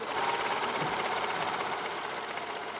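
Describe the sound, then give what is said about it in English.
Steady whirring of a serger sewing machine stitching fabric handles for recycled, reusable shopping bags at a community sewing station. The motor noise runs loud and continuous through the whole clip without a break. “And then over there, they're serging the handles and sewing.”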